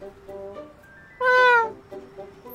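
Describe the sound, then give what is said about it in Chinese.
A white cat gives a single soft, low meow, a drawn-out voiced call with a slight downward bend, standing out over a faint background. “他轻喵一声，声音有点软，也有点低。”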